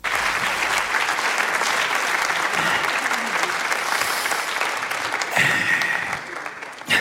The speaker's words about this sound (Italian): siete in pochi, però gli applausi fa rumore, eh? Sono belli caldi